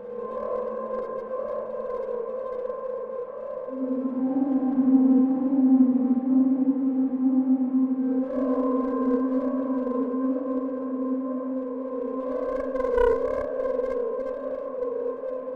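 A dark, eerie atmospheric drone from the Spitfire Audio Stratus sample library. Layered sustained tones hold steady, a deep low note swells in early, the texture shifts about midway, and a brighter surge rises near the end. There are no voices.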